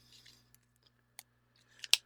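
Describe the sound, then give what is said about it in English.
A few faint, small plastic clicks sound while a cannabis vaporizer is loaded, spaced irregularly over quiet, with the last ones loudest. “There we go. I heard a click there and a click here. Here a click, there a click, everywhere a click, click.”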